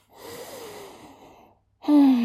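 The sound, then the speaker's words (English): A slow, deep breath drawn in through the mouth, airy and steady for over a second, followed by a short silence and then a brief voiced tone. “Take a deep breath with me. That's it. Breathe in.”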